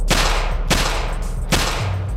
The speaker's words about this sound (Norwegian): Et vindu går ned. Så kommer skuddene.